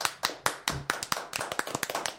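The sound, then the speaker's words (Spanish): Hand clapping from a small group, many sharp, distinct claps in a quick, slightly uneven rhythm that continue through the whole stretch at a moderate, fairly faint level. “Beba, aplausos.”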